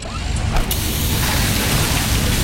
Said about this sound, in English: Oh, busted hose.